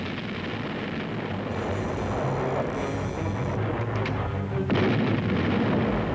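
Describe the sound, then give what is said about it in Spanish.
Naval gunfire salvos from the battleship Bismarck make a dense, continuous rumbling roar, with a couple of sharper blasts rising out of the din in the second half. “El Bismarck responde con una serie de salvas.”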